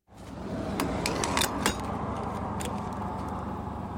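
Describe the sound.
A fuel pump fills a car's tank at a gas station with a steady rushing hum, and several sharp metallic clicks of nozzle handling sound early on.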